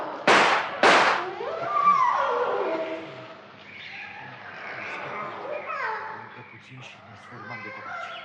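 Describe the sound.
Two sharp, loud gunshots crack in quick succession at the start, fired at an elephant that is dragging people toward a forest. Voices and a low hum follow.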